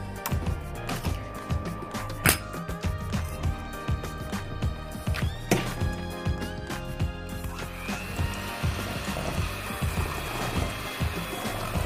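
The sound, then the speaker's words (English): An electric mixer beats softened butter for cookies, with a steady churning motor roar and dense rattling clicks. A thin, higher whine joins toward the end. “and the softened butter before I turn on the mixer”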